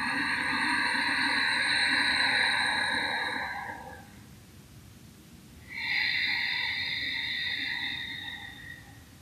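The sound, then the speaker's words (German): Ujjayi breathing during a guided meditation: two long, steady, hissing breaths drawn through a narrowed throat, separated by a short quiet pause, with no talking. “Das Geräusch, was du hörst, das ist durch die Ujjayi-Atmung.”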